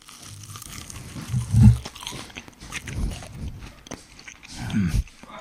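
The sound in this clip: Crunchy bites into a garlic nugget dipped in cheese sauce, with a few crisp crunching and chewing bursts that rise over a low, busy background.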